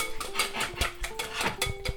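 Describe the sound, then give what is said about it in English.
Pancake batter being whisked in a bowl: a risen, yeasted mixture stirred with quick, uneven tapping and clinking strokes against the bowl, with faint ringing tones beneath, alone without talk. “We're just giving it another whisk.”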